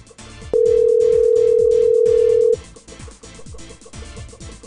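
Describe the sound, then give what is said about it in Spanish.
A steady telephone tone sounds while a number is being dialed. It is a single sustained mid-pitched beep lasting about two seconds over a busy, rhythmic background. “Vamos a ver si contesta don Rogelio ese número. O estamos, estamos marcando.”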